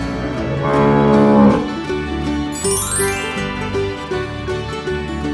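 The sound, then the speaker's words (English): A cow's moo, from a black and white cow on a grandfather's farm, sounds over bouncy children's-song music, followed by a bright chiming sweep. “The cow, she makes a sound like this, moo, moo.”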